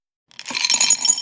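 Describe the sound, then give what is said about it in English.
Brach's jelly beans poured into a candy bowl start suddenly and go on as a dense, bright clatter of clinking pieces for about a second. “That's the sound of Brock's jelly beans being poured into a candy bowl.”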